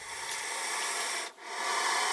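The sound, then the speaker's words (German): A dry, continuous rasping hiss, as a saw-scaled viper rubs its scales together in warning next to a snorting puff adder, in a university snake-venom laboratory in Liverpool. The loud, steady scraping noise dips briefly near the end. “Eine Puffotter schnaubt, eine Sandrasselotter schabt warnend ihre Schuppen aneinander.”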